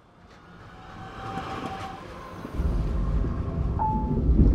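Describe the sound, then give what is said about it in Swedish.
A train arriving at Oslo Central Station gives off a steady rumbling roar that grows louder and heavier partway through, with a thin high squeal and a brief sharp whine above the noise. No voices. “Vi ankommer om ett par minuter till Oslo centralstation.”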